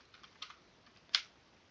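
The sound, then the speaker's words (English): Typing a password on a computer keyboard: a few faint, scattered key clicks followed by one sharper, louder keystroke, with quiet gaps between them and no talk. “type in my password for my user, my SSH public or private key, whatever it is called, and there we go.”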